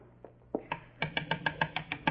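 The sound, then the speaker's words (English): Knocking on a door: a steady, rapid series of sharp raps in the second half, preceded by a few softer, scattered taps. “I better go up and knock on the door.”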